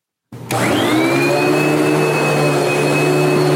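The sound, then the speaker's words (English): A household vacuum cleaner switches on, its motor spinning up within a moment to a loud, steady roaring whine with a thin high tone that holds unchanged to the end. “That noise. So that's a vacuum cleaner.”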